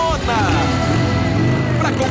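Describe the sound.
A brand-new motorcycle's engine runs loud and steady for a couple of seconds, a dense, buzzy drone rich in low harmonics with slight wavering in pitch.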